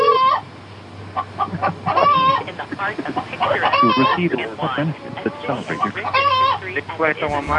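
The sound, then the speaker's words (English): A chicken clucks inside an elevator, giving loud, repeated squawking clucks with rising and falling cries over a low, steady background hum. “I'm in the elevator. There's a chicken in here.”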